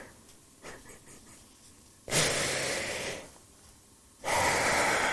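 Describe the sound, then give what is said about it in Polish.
A woman cries loudly, sobbing in two long, rough, breathy bursts after softer, broken breaths at the start. “nieważne, czy płacz jest elegancki, czy nie... Ale taki głośny?”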